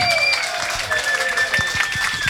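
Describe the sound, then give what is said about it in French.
Audience applause at a live blues café show as an artist is introduced: uneven bursts of clapping over a few sustained, held tones, at moderate loudness. “ce soir, vous pouvez applaudir”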